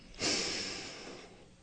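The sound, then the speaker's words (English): A single deep breath in, taken while standing with legs apart and arms extended: a breathy hiss that swells quickly, then slowly tapers off, heard alone. “And now that we are comfortably in this posture, let's go ahead and take a deep breath in.”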